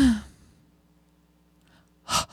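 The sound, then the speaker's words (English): Breathing out in two brief, breathy exhales, the first with a slight voiced sigh. Near silence and a faint, steady low hum sit between them. “Okay. I'm going to breathe.”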